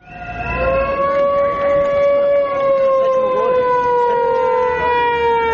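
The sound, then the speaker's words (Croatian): Sirens wail at an opposition street protest where several hundred supporters with banners block the main entrance of the state broadcaster's building. A loud, continuous, steady tone with strong harmonics holds throughout, drifting slightly lower in pitch. “Tačno u podne nekoliko stotina pristalica opozicionog Saveza za Srbiju je, noseći transparente i uz zvuke sirena i pištaljki, stalo na glavni ulaz zgrade Radio Televizije Srbije.”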